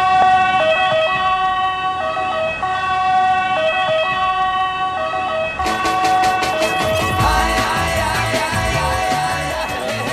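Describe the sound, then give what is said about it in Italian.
Ambulance siren wailing loudly and continuously in a steady two-tone pattern that switches partway through to a faster, denser warble, with road vehicle noise beneath. “noi mandiamo l'ambulanza, sì, succede che mandiamo l'ambulanza”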